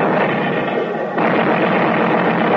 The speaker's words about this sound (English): We're going to make a break through the pass under the cover of the Navy barrage.